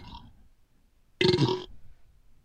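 A single loud burp, brief and raspy, bursts out after a short stretch of faint, low sound. Near-silence follows.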